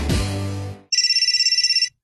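A telephone rings with a bright, rapidly pulsing electronic trill lasting about a second, after a short swell of low, harmonic sound that fades out.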